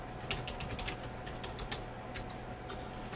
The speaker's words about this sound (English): If I'm in the editor here for the My Small Biz mail editor, and if I was going to put a link to a file, I'm just going to type it in